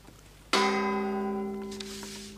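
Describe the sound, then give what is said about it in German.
A single gong stroke of a radio time signal marking five o'clock, struck once and ringing with a bright, sustained metallic tone that slowly fades. “Mit dem Gongschlag 17 Uhr.”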